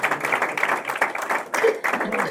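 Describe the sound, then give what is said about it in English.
Applause from a church audience for the choir during a worship service, a dense, continuous clapping that stays steady throughout. “Please give a round of applause to these folks.”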